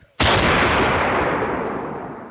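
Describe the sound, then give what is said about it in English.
A single loud gunshot as someone shoots a ketchup bottle: one sharp crack followed by a long, slowly fading noisy tail. “Putting my gun. Why did he just shoot the ketchup?”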